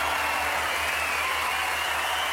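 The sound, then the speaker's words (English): At the close of a song, a live concert audience cheers and applauds, a broad, steady wash of crowd noise holding at an even level without distinct individual claps. “Well, I forgot the audience cheering there. A bit of live stuff.”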